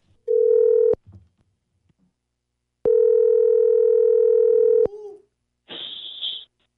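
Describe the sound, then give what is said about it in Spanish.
Telephone line tones as a call is placed: two long, steady, loud electronic tones separated by a short gap, then a brief, higher, buzzier tone burst at the end. “Te voy a marcar, ¿eh? Márcale.”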